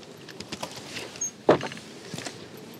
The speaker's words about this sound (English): So I'm just going to go towards Cadgwith and I'm going to go through the gate, Kissing Gate.